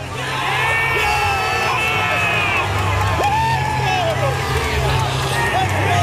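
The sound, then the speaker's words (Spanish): Canada's football players shouting and whooping together in a team huddle after a match, a burst of overlapping excited male yells and bellows that rise and fall in loud, ragged waves. “Mira, es el sonido de la piña de los futbolistas de Canadá.”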